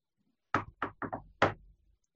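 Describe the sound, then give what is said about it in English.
Five knocks on a door by a hand wearing a ring, tapped in the uneven shave-and-a-haircut rhythm. The sharp raps stand alone in silence. “I'm going to take the hand that has that ring on it and knock”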